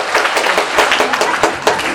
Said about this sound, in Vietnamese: Từ mẫu đúng rồi, vỗ tay.